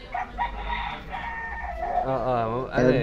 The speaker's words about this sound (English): And I'd like to say hi to the chicken too, to the rooster.